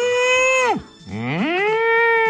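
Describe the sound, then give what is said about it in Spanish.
Cow mooing sound effect: two drawn-out, low, harmonic moos. The first holds steady and then drops away at its end; after a brief gap the second rises into a long, even call. “la vaca. Mirá vos, qué bien, con el efecto de sonido a mí me encanta esto.”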